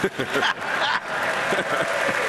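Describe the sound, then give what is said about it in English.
Studio audience applauding, a broad hiss of many hands clapping at a fairly even level, with a voice talking over it and a few brief dips in loudness. “You can applaud.”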